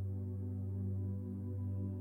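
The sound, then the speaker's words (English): Steady motor hum of a stand mixer spinning its paddle through thickening carrot cake batter, a constant low drone with a faint rhythmic throb and no voices. “She hears the mixer's motor working harder as it spins the paddle through the thickening batter.”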